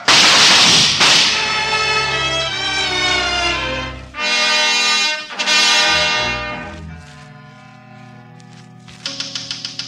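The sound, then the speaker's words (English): A firing squad's volley of gunshots: a few loud, sharp cracks at uneven intervals, each followed by sustained ringing tones, ending with a quick run of fainter clicks. “Firing squad, ready, aim, fire!”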